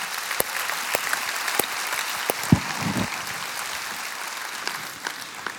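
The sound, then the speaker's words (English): Applause from a church audience welcoming a church member to the stage: steady, sustained clapping that fills the whole stretch with a few sharper claps standing out. “So Summit, would you put your hands together and welcome here to our stage one of our church members, Steve Noble.”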